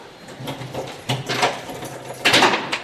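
A classroom door being unlocked, with a few muffled clicks, rattles and scraping knocks from the lock and handle arriving in uneven bursts, with nothing else prominent in between.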